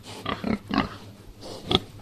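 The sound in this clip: Pigs on a farm grunt quietly in several short, rough snorts. They come in a loose cluster, then there is a pause and a couple more grunts follow.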